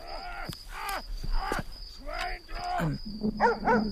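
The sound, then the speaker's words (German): A dog barks aggressively in a steady run of loud, harsh barks, each rising and falling in pitch, with several coming in quick succession. “Hörst du den Hund bellen? Der Leute bellen ja ständig irgendwelche Köter. Nee, das klingt aber irgendwie aggressiver.”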